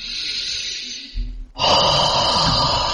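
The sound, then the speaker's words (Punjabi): Long, deep breathing in through the nose and out through the mouth. Two drawn-out airy breaths are separated by a brief pause, and the second is louder and fuller. “ਪੁੱਤ ਲੰਮੇ ਸਾਹ ਨੱਕ ਥਣੀ ਲੈ ਕੇ ਤੇ ਮੂੰਹ ਥਣੀ ਛੱਡੀ ਦੇ”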